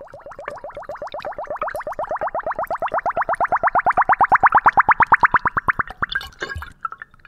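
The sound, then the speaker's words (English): Air bubbles out through a funnel as homemade plum wine pours into a bottle: a rapid, steady train of many glugging pops grows louder and climbs in pitch, then gives way to a few irregular gurgles and splashes. “When the wine passes through the funnel and into the bottle, air escapes, creating this little bubbly crescendo.”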